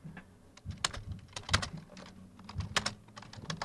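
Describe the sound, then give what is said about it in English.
Rapid typing on a computer keyboard: many quiet, irregular key clicks in a fast, uneven rhythm with no talk. “Wow, you typed really locked in right there.”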